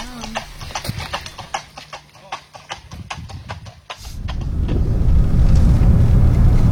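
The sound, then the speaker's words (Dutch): Horses carrying riders clop along a road during a fox hunt, with a steady run of sharp hoof strikes for several seconds. The clopping then gives way to a loud, continuous rushing noise. “We staan geparkeerd langs de weg en we zien de ruiters aankomen.”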